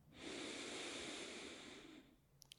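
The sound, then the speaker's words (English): A single slow, deep inhale during a guided breathing exercise: a soft, steady breathy rush lasting nearly two seconds. It eases off at the end, followed by a couple of faint clicks. “Let's take a deep breath, all of us right now. Inhale.”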